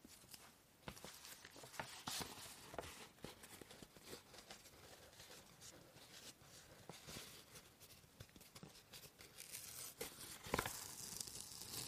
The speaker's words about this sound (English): Just see how, shall I peel off this?